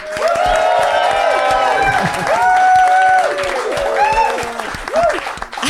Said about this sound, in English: I'd like you to applaud now.